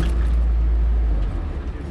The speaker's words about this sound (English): We're driving through Mitrovica in the back of a KFOR Jeep, being driven by our French guide.